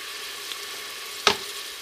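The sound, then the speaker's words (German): Onions, garlic and ginger frying in oil give a steady, soft sizzle, broken once by a single sharp knock partway through. “Jetzt kommen die Zwiebeln ins Öl als erstes. Und dann kommt noch der Knoblauch und alles Ingwer und das tun wir jetzt ein bisschen anbrutzeln fürs Erste.”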